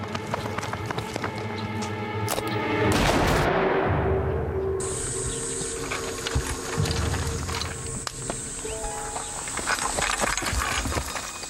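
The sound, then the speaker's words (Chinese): Gunshots ring out at the Xu family courtyard, sharp cracks scattered through a dense, steady din with running footsteps, one loud, rushing burst standing out early on. “二当家，徐家大院响枪了。听到了。”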